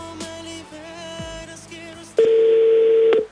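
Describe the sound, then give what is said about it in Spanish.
A telephone call being placed: after a short stretch of mixed tonal sound, a loud, steady line tone starts abruptly and holds for about a second before cutting off. “Se le marcó una vez a Julio César, segunda vez que se le va a marcar a Julio César para que quede listo.”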